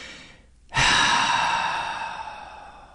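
A deep breath: after a brief quiet moment, an abrupt, loud breathy rush that slowly tapers off as a long, airy exhale, with no voice.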